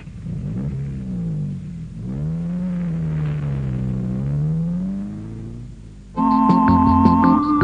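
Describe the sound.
A car engine drones as a car is brought out, its low harmonic hum rising and falling in pitch, before a louder, steadier tonal sound cuts in abruptly near the end.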